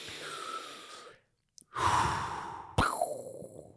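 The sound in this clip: Deep breathing, a few slow, full breaths with airy sighing exhales, fairly loud and with no talk over them.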